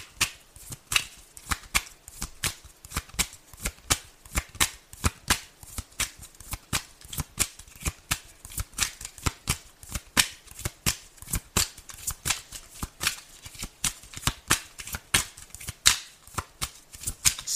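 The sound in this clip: Tarot cards being shuffled: a long run of many crisp, rapid riffling snaps and flutters in an uneven rhythm, loud and steady throughout with no talking.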